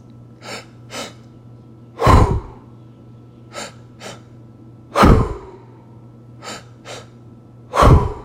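Deep breathing demonstration, heard as three cycles of two short soft inhales, filling first the belly and then the chest, each followed by a loud, longer breathy exhale, with no talking.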